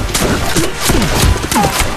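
A volley of black powder musket shots: many overlapping loud cracks and thuds pile into a continuous, crackling barrage that stays dense throughout.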